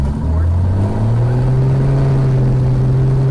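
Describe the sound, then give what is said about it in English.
Small airplane engine at full throttle for takeoff at an airport, a loud, steady, low drone whose pitch climbs briefly at the start and then holds level throughout. “I'm in the center line, I get this full throttle. And we're ready for takeoff.”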